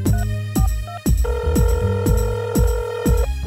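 A telephone rings out after a caller has been dialed. Many quick, loud ring pulses repeat in a steady rhythm, with a sustained electronic tone running beneath part of the sequence. No voices are heard.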